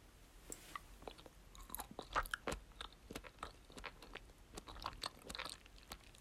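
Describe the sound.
Chewing mango-flavored gummy candy: many irregular, sharp crunchy bites and wet chewing clicks, some louder than others, quiet overall and with no talk.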